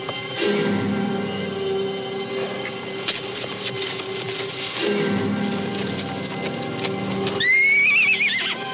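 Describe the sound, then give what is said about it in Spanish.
A horse whinnies near the end, a loose horse in a 1968 Western, its high, wavering neigh rising and falling over a steady, dense background of low rumble and rhythmic noise. “Ante el relinchar del caballo, los dos hombres se ponen en guardia.”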